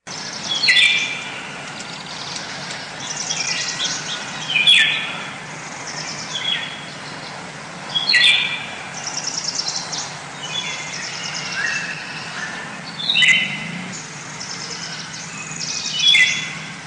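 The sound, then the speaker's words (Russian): A golden oriole sings short whistled, warbling phrases, repeated every few seconds over a constant hiss of background noise. “Из всех певчих птиц, лесных музыкантов, самая скрытная и красивая — золотисто-желтая иволга.”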